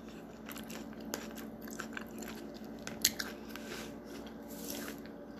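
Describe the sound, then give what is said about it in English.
Crisp crunching of raw celery being bitten and chewed: a steady run of moist, crackly chewing with a few sharper snapping bites standing out, fairly faint against a low background hum. “Sorry, I'm eating some celery. Good for your soul.”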